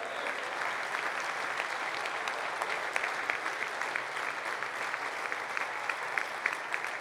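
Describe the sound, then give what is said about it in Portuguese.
Applause from a church audience at a Sunday worship service: dense, steady clapping that continues evenly throughout at a fairly low level, with no break. “Se você crê assim, aplauda o Senhor.”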